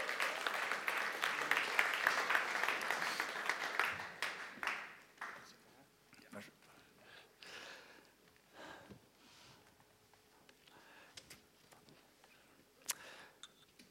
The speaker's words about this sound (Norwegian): En god applaus her nå.